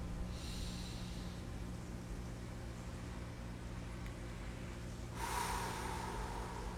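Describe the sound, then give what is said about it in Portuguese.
Slow, deep breaths during a guided breathing exercise, in through the nose and out through the mouth. Two long, soft, airy breath sounds are separated by a long pause over a steady low hum. “Expira pela boca. Inspira pelo nariz profundamente.”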